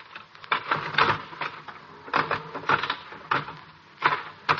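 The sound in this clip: A slot machine in the back room of a cigar store clatters and rattles mechanically in uneven, repeated bursts of clicks.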